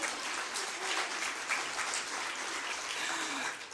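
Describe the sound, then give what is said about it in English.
Audience applause welcoming the speaker's husband, a steady wash of clapping from many hands that holds at an even level for nearly four seconds before easing slightly. “So I just want to welcome my husband.”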